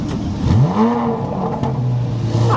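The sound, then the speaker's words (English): A Corvette Z06 sports car engine revs loudly: a deep engine note climbs quickly in pitch, levels off, then settles into a lower steady drone. “I'll stand in the middle here. You can hear the glory. The aggressive Z06.”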